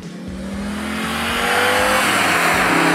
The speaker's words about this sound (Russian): С каждой сотни оборотов после 3000 Audi расцветает все сильнее, раскрывается, набирает ход.